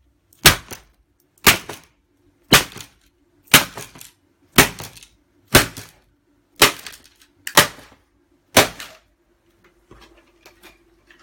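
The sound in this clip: An occult board named after the demon Horus is smashed with nine heavy, evenly spaced blows about a second apart. Each is a sharp, loud crack with a short decay, and a few faint, lighter taps follow.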